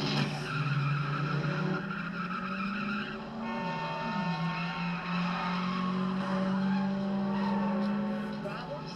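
A car speeding with its tires skidding, a loud sustained squeal over a steady engine roar that holds through the whole stretch.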